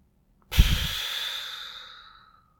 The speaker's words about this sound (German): Atme einmal tief ein und laut aus.